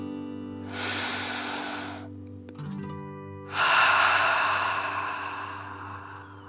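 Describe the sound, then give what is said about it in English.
Deep breathing during a breathing exercise: one long inhale through the nose, a short pause, then a longer, louder exhale out through the mouth, all over a steady low background drone. “Breathe in through your nose and breathe fire out of your mouth. Again, deep breath in and out.”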